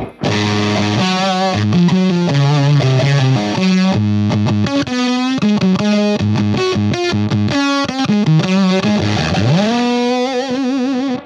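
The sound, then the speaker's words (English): Electric guitar through a Jext Telez Dizzy Tone gated fuzz pedal: thick, buzzing fuzz notes that cut off abruptly between phrases, loud and continuous, ending with a swooping pitch bend. “What is that fuzz? This is a Jex Teles Dizzy Tone, and so it sounds a lot like...”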